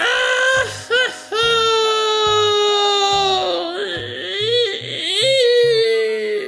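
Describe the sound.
A girl bursts into loud crying: long, high-pitched wailing sobs with wavering pitch and short catches of breath, over a steady pulsing low beat.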